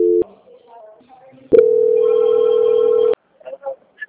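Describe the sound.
Telephone ringback tone plays while a call is transferred: a brief tone at the start, then one long, steady, loud tone lasting about a second and a half before it cuts off, with only faint sounds around it.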